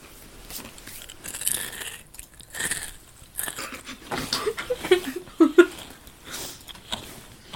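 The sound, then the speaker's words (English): Crunching and chewing of faintly lime-flavoured food, with a few sharp, crisp bites clustered in the second half over softer mouth sounds. “Mm, that was a crunchy bit.”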